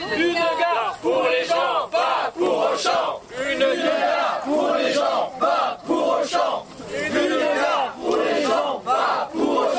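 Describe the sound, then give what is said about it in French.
A crowd cheering and shouting on request for a sound photo, a continuous roar of many loud yelling voices that surges in waves for about ten seconds. “Est-ce que vous pouvez faire du bruit pour la photo sonore?”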